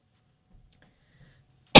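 A single short throat-clearing cough from someone with a frog in the throat, a sharp loud burst that comes right at the end after a near-silent stretch holding only faint low thumps.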